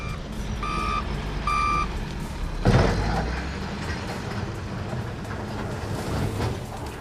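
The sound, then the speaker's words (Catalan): Reversing beeps and heavy machinery from excavators working in the Son Banya settlement in Palma, Mallorca: two steady warning beeps early on over a continuous low engine drone, with a brief louder clatter near the middle. “El so és de les excavadores que avui han tornat a entrar al poblat”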